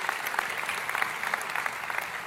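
An audience applauds during a sermon: a dense, steady crackle of many hands clapping, fairly soft, with no talk over it.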